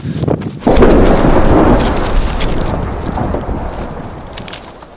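A refinery explosion sends out a shockwave as a sudden, heavy blast that swells into a deep, broad roar and then slowly fades across the remaining seconds.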